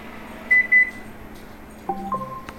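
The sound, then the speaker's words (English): Oven beeping to signal it has preheated to 400 degrees Fahrenheit: two short, high-pitched beeps sound close together, followed later by a few lower, faint electronic tones over a quiet background hum. “Your oven is preheated. Okay, it's preheated.”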